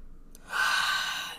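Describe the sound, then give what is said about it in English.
A single deep inhaled breath, drawn in alone. It is airy and swells in loudness before easing off slightly. “Let's take a deep breath. Is it, like, in breath? No. Inhale.”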